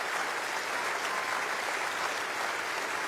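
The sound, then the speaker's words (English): Dense, steady applause with cheering from an opera audience at a curtain call, greeting the chorus on stage. The clapping holds at an even, full level throughout, with no speech over it. “joined on stage to those cheers by chorus master Stephen Harris”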